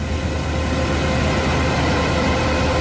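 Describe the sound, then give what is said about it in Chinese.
A combine harvester working at full power in a golden corn field as transport vehicles follow. Its engine gives a steady, loud, unbroken mechanical roar with no distinct separate events. “连片玉米田里满目金黄，收割机正开足马力作业，转运车辆紧随其后，将刚收获的玉米及时运往收储点。”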